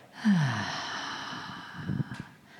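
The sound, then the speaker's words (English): A deep, soft breath out during a guided meditation: one long, airy exhale of about two seconds that tails off at the end, with no talking. “take a nice, deep, soft breath in, let it out,”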